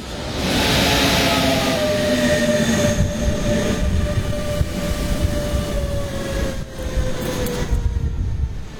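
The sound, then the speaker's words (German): An Intercity train to Norddeich Mole arrives at a platform with a loud, steady rumble of rolling wheels and thin, drawn-out wheel squeals running over it throughout. “Platform 2 now arriving IC 24, 32 to Norddeichmole via Potsdam. Departure 7.09. Caution, the train is arriving.”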